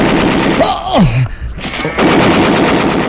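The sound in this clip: Loud, rapid bursts of machine-gun fire form a sound effect in a radio drama, rattling on almost continuously with a brief dip midway.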